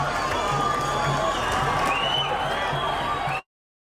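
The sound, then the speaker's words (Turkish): Thousands of Palestinians gathered around giant screens cheer Spain's World Cup win, a dense, steady roar of crowd shouting and cheering that holds level and then cuts off abruptly. “kurulan dev ekranların etrafında toplanan binlerce Filistinli İspanya'nın şampiyonluğunu coşkuyla kutladı.”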